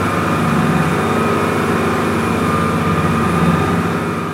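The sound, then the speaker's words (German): Deep, continuous roar of a 640-horsepower motorboat engine speeding across the Atlantic between the islands of St Kilda off Scotland, loud and steady without breaks. “Von 640 PS getrieben donnern wir zur Nachbarinsel Borrere hinüber und zu den Sea Stacks”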